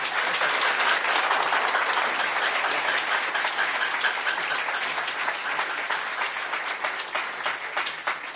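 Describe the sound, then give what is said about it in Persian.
Sustained applause from an audience at a Congress 60 group meeting: dense, steady clapping that fills the whole stretch and thins slightly toward the end. “به افتخار خودتون دست.”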